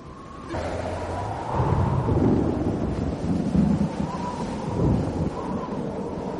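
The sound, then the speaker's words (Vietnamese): Loud rolling thunder during a heavy storm after dark, a deep continuous rumble that swells several times over a steady wash of storm noise. “bên ngoài đã tối đen, trời nổi giông lớn, sấm chớp giang rần, cây bị ngã qua, ngã lại”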